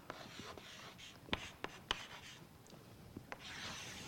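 Writing on a board: faint scratching strokes with a few sharper taps, quiet and irregular.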